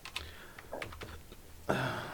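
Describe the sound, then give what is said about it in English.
Typing on a computer keyboard: a few irregular, soft keystroke clicks, then a louder, denser clatter of keys near the end, with no talk. “Click it again so I can type.”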